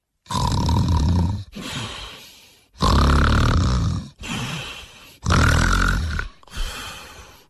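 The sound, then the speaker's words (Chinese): A human voice imitates a young woman snoring loudly. Three loud, rasping snore cycles each alternate with a softer breathy outflow, forming a slow, steady, exaggerated rhythm with no talk. “你说人家老爷们睡觉打呼噜，这么大个姑娘睡觉鼾声如雷。”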